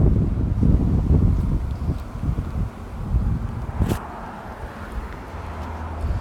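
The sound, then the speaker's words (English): Wind blows hard into the microphone, producing a loud, low, rumbling buffet that surges and eases in uneven gusts, with a brief sharper crackle partway through. “I'm going to fight through this wind.”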